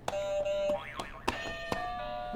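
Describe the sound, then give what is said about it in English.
Electronic buzzer sounds from a button being pressed: a few sharp, bright attacks, a steady mid-pitched tone and a wobbling, boing-like warble, with no talking. “You want to do another buzzer for me? Yeah. Can you hit another buzzer?”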